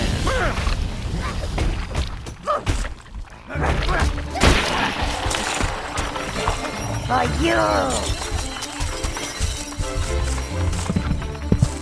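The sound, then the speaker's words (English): A hobbit hole being destroyed: loud, dense crashing and shattering with bursts of breaking debris and clattering, and voices talking amid the din. “That damn hobbit. And destroy the hobbit hole.”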